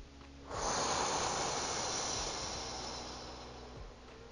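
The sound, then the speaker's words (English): Slow breathing out through the mouth during a guided breathing exercise: a soft, steady airy hiss that begins after a brief quiet moment, then gradually fades over a few seconds. “So let's take three breaths. Let's take the first one in through the nose. Hold. And out through the mouth.”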